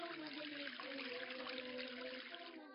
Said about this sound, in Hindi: अब इसके बाद नल खोलकर दोनों हाथों को धोइए